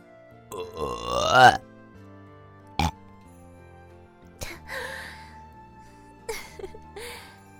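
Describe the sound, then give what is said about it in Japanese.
One long, croaking burp with a wobbling, rising pitch, followed by a few shorter and fainter throaty bursts and breathy sounds. “ゲップじゃないかと。”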